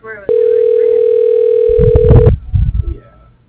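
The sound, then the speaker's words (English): A telephone dial tone holds one steady, loud pitch for about two seconds after a brief click, then cuts off into a few muffled knocks and handling noises. “Dialing.”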